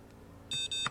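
Two short high electronic beeps in quick succession from a ruler-shaped gadget being switched off while it is charging, fairly faint and alone.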